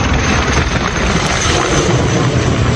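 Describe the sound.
A firefighting aircraft flies over a wildfire, a loud, steady engine roar that stays even from start to finish with no voices.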